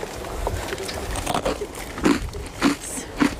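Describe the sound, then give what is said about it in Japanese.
Crisp crunching bites into an individually wrapped Shiruko Sando biscuit snack, with faint rustling at first and then a few louder, sharp crunches toward the end. “あの本当にこう個包装になってるんで、うん、こう登山中にも高度食として 出るんですけど、シルコサンド”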